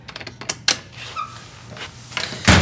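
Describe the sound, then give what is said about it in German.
A door being opened or shut: a run of sharp clicks and rattles, a brief creaking squeak in the middle, and a louder knock at the end, fairly quiet overall. “Scheiß Tür.”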